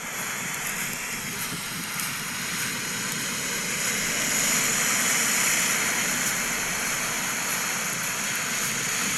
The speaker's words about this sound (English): You can probably hear the crashing waves in the background. Hold on, I'm going to let you hear a bit more. Listen to this.